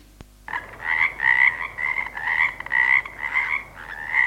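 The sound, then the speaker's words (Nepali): Frogs croaking in a pond filled with rainwater during the rainy season: many loud, rhythmic croaks that repeat in a steady pulsing chorus with no other sounds. “वर्षायाममा पोखरीमा पानी जम्मा भएर भ्यागुता कराएको करै गर्छन्।”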